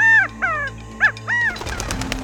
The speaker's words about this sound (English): Suddenly, a partridge flew right up to Icarus's face, chirping up a frenzy.